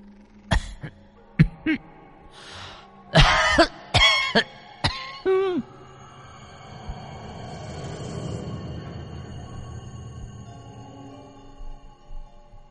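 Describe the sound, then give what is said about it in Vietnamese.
Harsh, racking coughing, like an elderly woman with long-standing asthma, comes as a rapid series of wheezy, loud bursts over the first few seconds. A low, lingering drone follows. “Đột nhiên, có tiếng ho khổ khổ vang lên, làm cho bác giật mình.”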